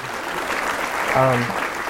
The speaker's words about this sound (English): So just please give yourself a round of applause.